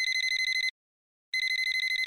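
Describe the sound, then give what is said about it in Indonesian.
A telephone ringing in two bursts of rapid, even trilling pulses with a brief silent pause between them. The ring is bright and fairly faint, with no talk. “Bentar ya, ada telpon. Ini temanku, nanti aku telpon balik.”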